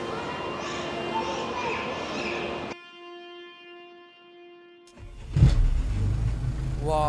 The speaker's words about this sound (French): Waouh, pas vraiment une bombe l'auto là. Je rentre pas là-dedans moi.